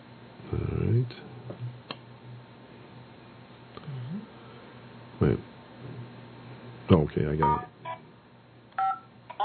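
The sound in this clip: Telephone keypad tones as a teleconference access code is entered: a few short electronic beeps scattered among a person talking, with a brief cluster of tones near the end.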